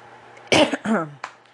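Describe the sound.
A person clears their throat while starting a recording: one rough, forceful burst, then a short voiced rumble and a small final catch, heard alone.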